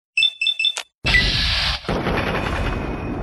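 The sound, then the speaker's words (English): An automated turret in a video game fires indiscriminately. A few short tonal bursts come first, then a loud, sustained roar of gunfire that continues to the end. “That the turret coming after me? I think it is. It's firing indiscriminately.”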